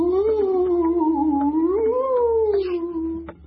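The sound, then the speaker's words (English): A human voice imitates a theremin, the electronic instrument played by waving hands through the air, with one wavering, gliding tone that swoops up and down in eerie, ghostly fashion for a few seconds, alone. “It's this bizarre electrical instrument where you wave your hands through the air and it goes...”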